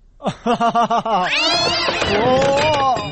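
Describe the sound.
A cat meowing and growling: five quick, pulsed cries in a row, then a long, loud, wavering high yowl that slides up and down before trailing off.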